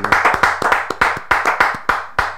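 Congregation clapping in acclamation during a church service, with brisk, steady rhythmic claps in an even beat, loud and sharp, with no voices over them.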